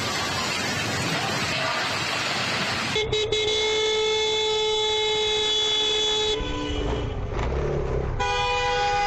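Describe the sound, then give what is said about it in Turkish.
A motorcycle horn honks at a bus after a near-collision at a red light on a city road. Traffic roars at first, and then the horn sounds in loud, sustained blasts with short breaks between them. “Çarpışmadan son anda kurtulan motosikletli genç korna çalıp sürücüye çıkıştı.”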